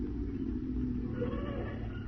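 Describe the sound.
A taxi cab pulling up on a street gives off a steady, low engine rumble that holds evenly throughout, with no distinct horn or door sounds.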